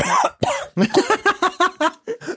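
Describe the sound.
Harsh, choking coughs from someone who inhaled a sip of wine instead of swallowing it. A long first spasm gives way to a rapid run of many short, voiced coughs, loud and without other sound.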